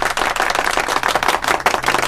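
A round of applause, brisk and fairly loud, with many quick claps running together in a continuous, slightly uneven patter for the whole stretch.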